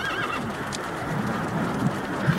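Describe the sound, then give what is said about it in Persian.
A horse neighs while hooves clop at a riding club, where a black horse carries a rider around the arena; a high whinny opens over a steady bed of soft hoofbeats and muffled background noise. “میسان مائده به اسب مشکی اشاره می‌کنن که سوارکاری روش نشسته و تو محوطه در حال حرکت.”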